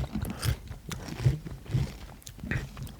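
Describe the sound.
Chewing and crunching while tasting honey-mustard food: several soft, crunchy bites in an irregular rhythm, fairly faint, with no clear talk over them.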